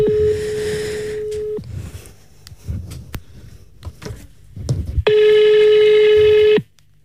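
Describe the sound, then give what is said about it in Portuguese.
A telephone dials and rings a home number: a long, steady ringing tone, then scattered brief beeps and clicks, then a second long ringing tone that cuts off abruptly. “Eu vou ligar para casa. Ok. Para ver qual é o primeiro que atende.”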